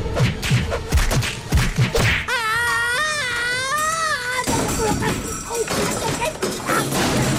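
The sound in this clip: A person falls down a staircase: a quick run of heavy thuds and bangs, then a long, wavering, high-pitched wail, with voices afterward.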